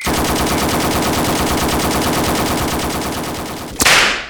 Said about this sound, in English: Don't worry, it's a normal reaction to wielding an M60 for the first time.